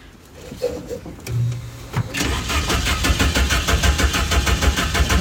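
A car engine starting after a few faint clicks: a short cranking burst, then the engine catches into a loud, steady, rhythmic running chug that continues to the end.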